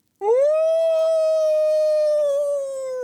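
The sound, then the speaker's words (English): A lone animal howl rising out of the woods in the distance, one long sustained note that swoops up at the start, then holds steady and clear before easing slightly softer near the end, with no other sounds around it. “The howl of that seems like many leagues away.”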